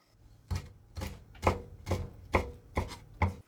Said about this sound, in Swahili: Katakata kamba kwa urefu wa sentimita 1 kiukubwa na waweke chumvi kiasi na pilipili manga.